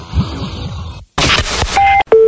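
Telephone call being placed: a short burst of dialing noise, then two steady electronic beeps, the second lower in pitch than the first.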